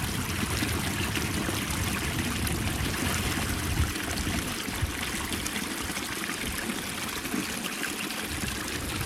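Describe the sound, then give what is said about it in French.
A small stream of meltwater from the Ok glacier in Iceland trickles and rushes steadily, a continuous even burble that holds its level throughout. “Voilà, qu'un petit ruisseau surgit. C'est de l'eau de glacier. Ce qui reste du glacier Ókjökull qui est en train de fondre et de dévaler la pente.”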